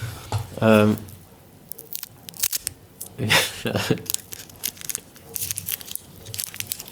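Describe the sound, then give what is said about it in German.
Candy wrapper being slowly unwrapped, giving irregular crinkling crackles and rustles spread through the whole clip, with a few louder bursts among fainter scattered ticks. “wenn man langsamer einen Bonbon auspackt, dann wird es nicht leiser, sondern einfach, es ist länger laut”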